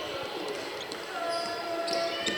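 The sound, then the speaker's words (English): Basketball dribbled on a court in the final seconds of a game, the bounces set within a steady wash of crowd noise, with a thin sustained tone midway. “Dribbling around under 10 seconds.”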